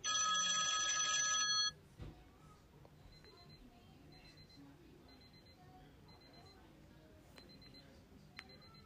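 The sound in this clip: An electronic phone ringtone plays a bright burst of layered, tonal notes for under two seconds, then cuts off abruptly, leaving only faint background noise.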